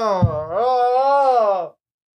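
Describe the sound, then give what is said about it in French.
A single long, voiced yawn from someone who has yawned constantly since childhood. It opens with a short catch, then stretches into a drawn-out, moaning tone that holds steady and cuts off abruptly after under two seconds. “Je m'excuse vraiment, c'est un problème depuis que je suis enfant. Je lis, je baille, oui.”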